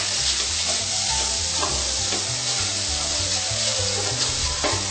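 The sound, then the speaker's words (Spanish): Food fries in a pan as it is stirred until golden, with a loud, continuous sizzle and scattered scraping touches from the stirring. “Y mezclamos. A ver si puede tapar. Sí. Mezclamos bien para que quede bien dorado.”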